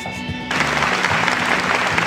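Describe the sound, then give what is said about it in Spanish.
Applause from a live audience at a stand-up comedy set, with brief music at the start giving way to a loud, dense, steady burst of clapping that lasts about one and a half seconds. “Muchas gracias a este querido público toda la gente que está aquí en el foro, toda la gente que está aquí en el set. Qué buenos aplausos.”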